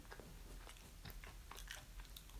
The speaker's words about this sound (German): Ich mag aber essen. Lecker.